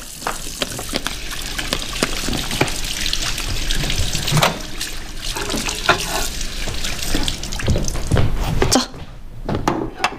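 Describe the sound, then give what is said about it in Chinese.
Hands are washed under a running tap, making a continuous hissing gush of water broken by irregular splashes. It is loud throughout, with some talking alongside. “洗手去。 来，洗手。”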